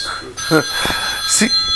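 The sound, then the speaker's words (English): A mobile phone rings with sustained, high electronic tones beneath people talking. “See, yeah, I think that's my phone for some reason.”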